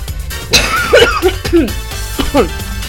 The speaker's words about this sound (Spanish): tengo transmisión en vivo y me agarré la tos